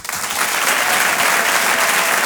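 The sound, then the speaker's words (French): Applause from a comedy club audience welcoming a performer to the stage. It starts with a few scattered claps, quickly swells into loud, dense clapping and holds steady to the end. “Je vous demande un tonnerre d'applaudissements, s'il vous plaît, pour Walidia.”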